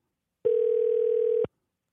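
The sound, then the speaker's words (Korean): A telephone dial tone sounds as a call is placed during a live listener phone-in: one steady, mid-pitched electronic tone that holds at an even level for about a second and then cuts off, with no voices. “전화 한번 걸어보겠습니다.”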